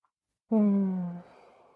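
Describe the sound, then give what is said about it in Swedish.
A single deep breath is let out as a soft voiced sigh, rising suddenly and trailing off over under a second, faint and alone. “Precis det jag gjorde nu, att ta ett djupt andetag.”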